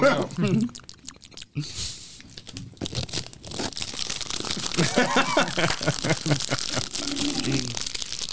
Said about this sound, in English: Graham crackers. That's really good. Open them up.